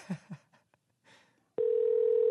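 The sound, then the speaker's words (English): Telephone dial tone on an outgoing phone call: after a few brief soft sounds, a steady, continuous single-pitch tone starts abruptly and holds to the end. “Genevieve, we're calling you just a little late, but nobody seems to be answering their phone this morning.”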